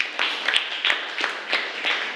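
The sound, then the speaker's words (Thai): Rhythmic group clapping as an audience applauds group one, with sharp claps landing at a steady, even beat across the whole stretch at moderate loudness. “ปรบมือให้กับกลุ่มที่1ด้วยค่ะ”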